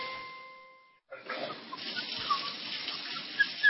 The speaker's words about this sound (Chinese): 咱北京啊是个缺水的城市，看见有那个水龙头不关的哗哗流的心疼啊啊！